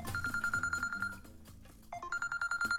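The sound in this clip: A telephone rings during a call: a faint, rapidly pulsing electronic ring tone repeats steadily, breaks off briefly partway through, then resumes.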